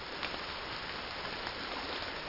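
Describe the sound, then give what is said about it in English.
Heavy rain pours down on a garden of crimson-flowered currants, salmonberries, red columbine and native rhododendrons near a rushing river in Oregon's Cascade Mountains, forming a soft, steady, even hiss with no voices. “a downpour pummels crimson-flowered currants, salmon berries, red columbine, and native rhododendrons.”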